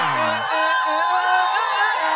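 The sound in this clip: Drawn-out booing from a person during a game show, starting as a low vocal drone and then turning into steady, loud, higher voiced noise that continues to the end.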